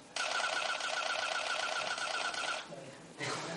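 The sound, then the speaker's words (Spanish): Camera shutter firing in burst mode, about 20 frames in two seconds, makes a fast, continuous mechanical rattle lasting around two and a half seconds. After a brief pause, a shorter burst of the same rattle follows. “Acabo de haceros 20 fotos en dos segundos.”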